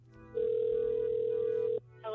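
A single steady telephone tone sounds as a call is dialed, a loud, flat, even hum lasting about a second and a half before cutting off over faint background noise.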